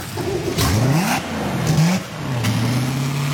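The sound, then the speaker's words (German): A boat engine with a Z-drive runs during a hot-water flush, its revs climbing and dropping a few times in rising, droning tones. The engine stays fairly loud throughout, with no voices. “Jetzt machen wir gerade die Motorspülung. Ich habe jetzt das Wasser angehängt, das Heisswasser. Und jetzt gehe ich ins Schiff rein und lasse dann laufen. Und dann hört man auch einmal, wie das ein bisschen tönt.”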